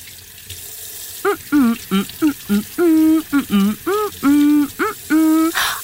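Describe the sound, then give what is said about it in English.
Steady running tap water at a sink while hands are washed thoroughly, a continuous hiss that lasts the whole clip, with a voice sounding in short tonal bursts over it. “I'm almost done washing my hands. I just came back from the store, so I'm washing my hands thoroughly.”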